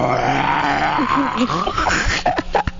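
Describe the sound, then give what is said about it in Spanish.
A person's voice imitates a lion's roar, like a coughing lion just waking up: rough, low growling and groaning sounds in short uneven bursts. “Es un león como que tuvo tos. Como que se está despertando,”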